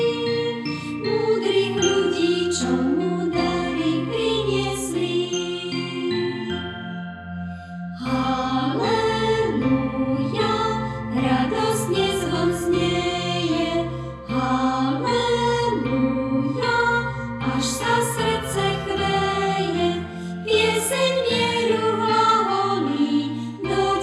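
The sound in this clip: Christmas bells chime and tinkle in a full, continuous ringing melody with rich sustained overtones, steady and fairly loud throughout, with no talking.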